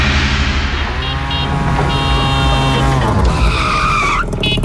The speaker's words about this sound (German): Wir hören nochmal, so klingt das Tuk-Tuk.